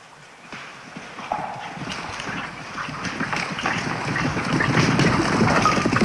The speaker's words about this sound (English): Several riders gallop out of the woods, coming toward him from either side of the forest.